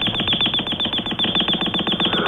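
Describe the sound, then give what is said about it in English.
An alarm clock goes off with rapid, regular beeping, many evenly spaced electronic pulses that stay loud and unbroken throughout. “Oh, turn it off, Ted. What? The alarm, honey.”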